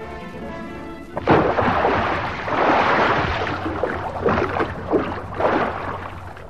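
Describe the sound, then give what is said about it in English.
A person dives off a pier into water: a sudden loud splash breaks a low steady hum, followed by several seconds of churning, rushing water with a few surging swells. “I'm diving off this pier, and when I do, you'll never catch me.”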